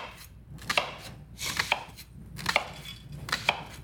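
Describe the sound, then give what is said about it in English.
A knife chopping an onion into pieces for a Bloomin' Onion, giving sharp, quiet strokes on a cutting board that come singly and in quick pairs at an uneven pace, with no talking. “So you go in, and you just cut like this. Oh, and you make this, okay. So those are all the pieces of the Bloomin' Onion.”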